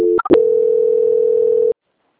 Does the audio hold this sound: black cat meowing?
no

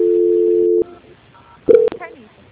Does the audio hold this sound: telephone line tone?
yes

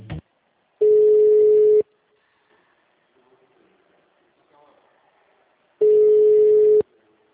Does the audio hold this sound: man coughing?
no

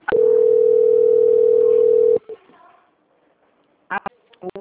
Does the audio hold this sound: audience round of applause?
no

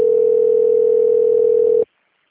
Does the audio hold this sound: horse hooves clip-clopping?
no

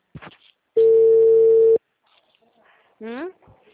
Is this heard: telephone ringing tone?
yes

